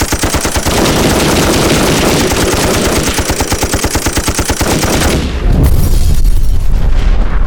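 Machine gun fire rattles in a loud, rapid, steady stream of shots for about five seconds, then gives way to a heavy, booming rumble.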